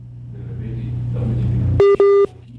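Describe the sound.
Two short telephone keypad tones sound as a call is redialed, following a steady low hum and rumble.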